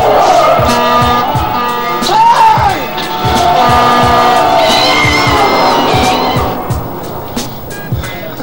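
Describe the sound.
A car swerves with its tires skidding after the steering wheel jerks free, despite a tune-up the day before. Loud, broad tire noise carries squealing tones over engine roar, with steady rhythmic thumps throughout.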